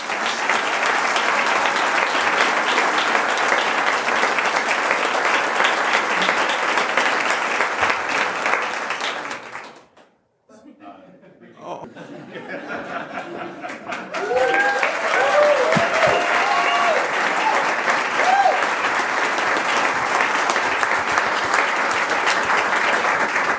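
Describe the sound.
Steady, dense applause from an audience welcomes a speaker, briefly fading away midway before swelling back to full strength, with a faint voice audible as it resumes.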